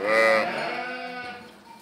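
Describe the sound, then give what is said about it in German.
A Cerasca sheep gives one long, wavering bleat that is loud at the start and slowly fades over about two seconds, with no talk. “Es gibt immer weniger Schäfer, die sich Cerasca-Schafe halten.”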